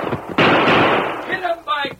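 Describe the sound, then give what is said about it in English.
Gunfire during a Western radio drama shootout in the brush: a loud blast that sustains and slowly decays, then a second sharp burst near the end, with voices mixed in. “Just what's the idea of opening fire on us?”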